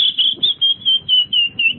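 Whistled imitation of bird calls: a bright, high, steady tone broken into a quick series of rhythmic pulses, repeated many times without pause.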